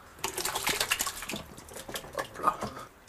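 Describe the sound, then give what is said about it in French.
Mirabelle plums and pears are loaded into a still for making fruit brandy, giving wet, irregular splashing and tumbling thuds in many uneven bursts of moderate loudness, with a sharper knock right at the end. “Je suis en train de remplir l'alambic afin de pouvoir lancer la chose.”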